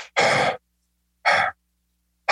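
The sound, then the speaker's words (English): Forceful huffing breaths from a breath-work exercise: a few loud, airy, breathy bursts of about half a second each, separated by silence, with no talking. “You could do some, you know, like huffing and puffing type of breath work.”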